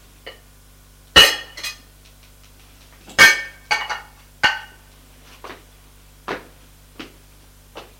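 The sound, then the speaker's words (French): A bottle and two glasses are fetched from a corner of a living room. Sharp glass clinks and knocks come at irregular intervals, a few loud and the rest faint, with no voices. “Elle va dans un coin du salon chercher une bouteille et deux verres.”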